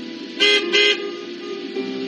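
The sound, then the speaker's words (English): Car horns honking at a drive-in church service as cars parked in rows answer a call: two bright honks close together, then a weaker third, over a steady low engine hum. “pray that prayer. I want you to honk your horn.”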